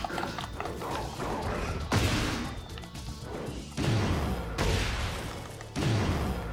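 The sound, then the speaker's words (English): A power bomb slam in the fighting game Tekken 8: heavy crashing impacts, about three, hit amid dense, busy game noise during a ranked match. “Got him with a power bomb.”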